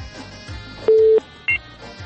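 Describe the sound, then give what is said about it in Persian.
Electronic telephone tones as a phone call is cut off: a steady low beep lasting about a third of a second, then a brief higher beep, both standing out over a quieter rhythmic background. “تماس خواهر ما متاسفانه قطع شد”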